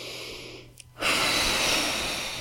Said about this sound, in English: And now let it out. Deep cleansing breath.